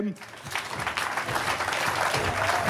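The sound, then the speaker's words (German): An audience claps at a live band show, a dense, steady patter of many hands that keeps up throughout, with voices faintly mixed in. “Ein bisschen klatschen.”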